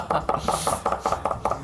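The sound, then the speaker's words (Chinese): Medium-mature ginger chopped finely with a knife on a board: a rapid, even series of sharp wooden knocks, about nine in all, with no talking. “好，这个是姜，好，我们把它切碎完之后，把它加进去。”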